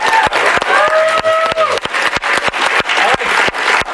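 Audience applause for a BYU football coach and guest at the end of a studio segment. Dense, loud clapping fills the whole stretch and stays steady without a break.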